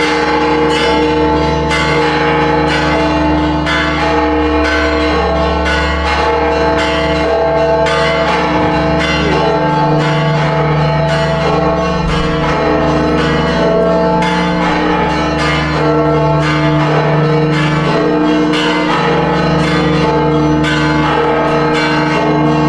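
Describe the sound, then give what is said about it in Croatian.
Church bells ring at the Basilica of the Holy Sepulchre in a loud, continuous peal of many rapid, overlapping strikes. Rich metallic overtones sustain throughout. “Došavši pred baziliku groba Isusova, odjednom su započela zvoniti zvona, a zvonjenje je trajalo pa nekih 15 minuta.”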